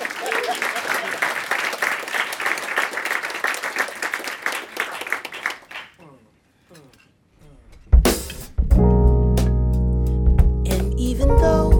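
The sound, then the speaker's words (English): Audience applause at a live music performance: a thick wash of clapping that holds steady for several seconds, then fades into quiet before music starts up loudly. “Y'all give him a hand.”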